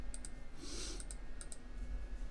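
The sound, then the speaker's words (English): Faint clicks of a computer mouse, a few sharp ticks, some in quick pairs, scattered over a steady low hum. “So while I'm clicking and ticking around like this”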